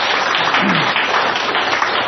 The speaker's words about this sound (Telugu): So ఆయన మన తల్లిదండ్రి, ఆయన కూడా ఒకసారి చప్పట్లు కొడదాం.